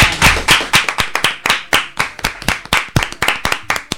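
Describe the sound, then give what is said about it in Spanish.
Applause from an audience after a story is told at a storytelling session: many sharp, loud claps in a fast, fairly even rhythm, with no voices over them. “Un aplauso, ¿no?”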